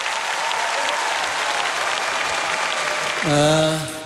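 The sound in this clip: Concert audience applauding after a love song, a thick, even wash of clapping that holds steady before a voice cuts in near the end as the applause swells slightly.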